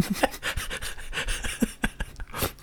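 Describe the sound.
Panting from a voice imitating Goku from Dragon Ball: a quick run of short, breathy huffs and gasps in an uneven rhythm, fairly quiet and without words.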